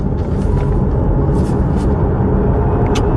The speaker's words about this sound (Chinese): 准备我马上开始加速。现在动力是1%，对吧？ 加速。